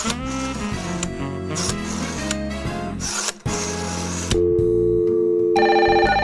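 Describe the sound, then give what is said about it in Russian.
A telephone ring tone enters over music in the last couple of seconds, a steady electronic buzzing tone after several seconds of loud music. “А сейчас позвоним Добрыне.”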